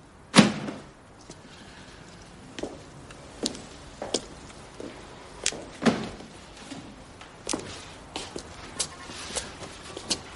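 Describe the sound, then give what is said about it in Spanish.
A book lands on a pile of books on the floor with one sharp thud, followed by a series of softer, irregular thumps like footsteps as someone walks out of the room. “mira el libro que tiene la mano y lo tira a la pila de libros del suelo. Después sale de la habitación.”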